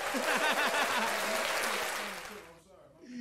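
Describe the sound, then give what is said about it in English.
Dense hand-clap effect with a sharp, applause-like patter, loud and steady for over two seconds before tailing off. Voices run underneath and over the clapping. “You need some hand claps”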